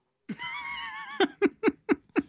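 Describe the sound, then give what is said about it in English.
Horse neighing during a horse-jumping scene in a comedy film: a sustained, quavering tonal whinny, then five quick, breathy pulses in an even rhythm, moderately faint. “That's a scene of horse jumping from Caddyshack 2.”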